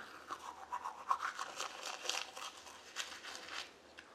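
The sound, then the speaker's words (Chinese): Teeth being brushed with a toothbrush: a steady run of faint, rapid scrubbing strokes, heard alone with no talk. “我正在刷牙。”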